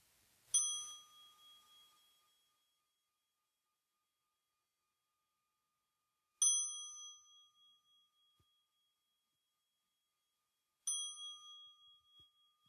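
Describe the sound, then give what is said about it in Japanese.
A bell rings three times to signal the start of zazen meditation. Each clear metallic strike rings out and fades over a second or two, with long silences between the strikes. “鐘が3度鳴ったら座禅開始の合図です。”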